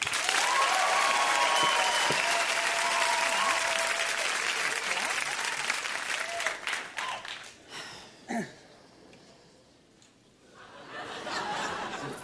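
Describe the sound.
A studio audience applauds to welcome guest Rob Lowe with loud, dense clapping that gradually thins out, scattered chuckles and laughter mixing in as it dies down, then a small renewed swell near the end.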